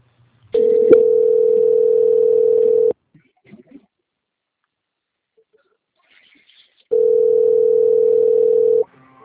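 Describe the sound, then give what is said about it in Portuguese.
Steady telephone line tone heard while a call is transferred to a bank's quality-control department. It plays in two long unbroken bursts at a single pitch, separated by a stretch of silence. “Por favor, aguarde em linha que iremos transferir a ligação para o controle de qualidade do seu Santander, ok?”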